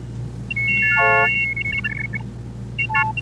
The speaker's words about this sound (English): This is Harvey using an optophone, a kind of scanner that would look at text and turn it into a series of tones representing the shapes of the letters.